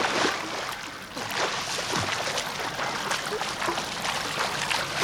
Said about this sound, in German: Okay, schwimm einfach mal los. Ich gehe am Beckenrand nebenher. Ich schwimme los.